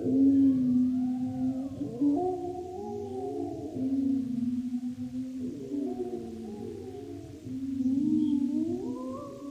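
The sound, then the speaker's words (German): Wolves howling together in a chorus of several overlapping voices, long tonal calls gliding up and down in pitch, moderately loud and steady throughout with no talk. “Habt ihr es gehört, meine treuen Gefolgsleute? Die Wölfe heben an zu heulen.”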